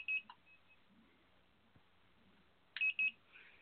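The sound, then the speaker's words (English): Faint electronic beeping beside a heated hognose snake enclosure, two brief clusters of short, high-pitched beeps separated by quiet. “You hear the beeping? It's great, isn't it?”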